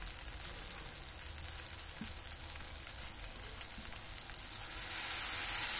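Sizzling from water poured into a hot pan so the bottom does not burn: a steady, bright hiss that holds evenly and swells a little louder near the end.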